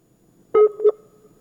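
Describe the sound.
Two short, mid-pitched electronic beeps sound close together as a listener's phone call drops off the line, then quiet.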